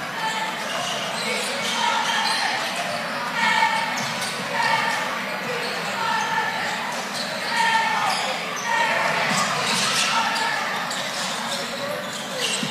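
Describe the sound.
A basketball is dribbled during a game, its bounces running through a steady wash of arena crowd noise while a commentator talks over it throughout.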